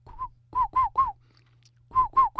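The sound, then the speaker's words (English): A person whistles an imitation of the rain crow cuckoo call: short, hollow, clear notes at a steady pitch, four in quick succession, a pause, then two more, with no other sounds. “the Southerners call them, the rain crow. The Germans call them the Regenpfeifers. It has a call that goes,”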